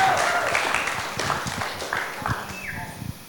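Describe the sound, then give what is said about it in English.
Audience clapping at a church gathering as the first speaker is welcomed up to share: scattered, uneven claps that gradually thin out and grow fainter over about three seconds. “I'd love you to put your hands together and welcome the first person, which is Tim Hartland, is going to come up and share.”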